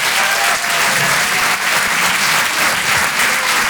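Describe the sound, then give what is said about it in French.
Audience applause for a comedian at a live comedy show, a dense, steady wash of clapping that stays loud and even for several seconds, with no voices standing out. “Faites du bruit s'il vous plaît pour Hugo Pêcheur.”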